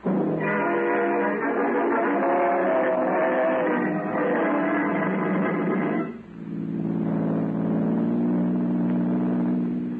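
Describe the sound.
A car drives off with a loud, continuous engine drone. The drone dips briefly partway through, then carries on steadily to the end.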